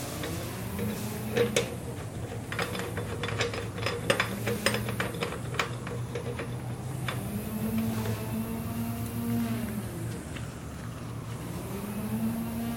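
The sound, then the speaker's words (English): A ratchet clicks while tightening a bicycle wheel into place. Many sharp, irregular clicks sound over a steady low hum that runs throughout. “the wheel is in position, ready to tighten down. Make sure it stays straight.”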